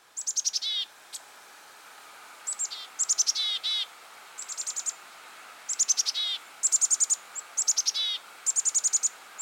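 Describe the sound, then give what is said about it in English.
Black-capped chickadee giving its chick-a-dee call: many repeated bouts of high, quick, chirpy notes in short bursts, separated by brief gaps, with no other sound. “The name chickadee actually comes from one of the vocalizations made by the black-capped chickadee and its close relatives. It's the chick-a-dee call, and it sounds like this.”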